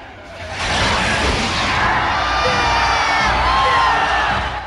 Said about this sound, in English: The crowd roars, still convinced it's all part of the act.